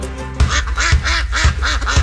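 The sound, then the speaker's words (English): Ducks quacking at a spring bird refuge in Box Elder County: four loud, evenly spaced quacks, each a short nasal, harmonic call with a low thump beneath it, repeating at a steady rhythm with no voices. “Can you hear it? That's the sound of nature waking up in Box Elder County. Spring has sprung, and the first visitors are already here. From grebes to geese, Bear River Bird Refuge”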